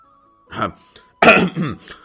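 A man gives two dry coughs, short rasping bursts with a brief pause between them, over a faint steady hum.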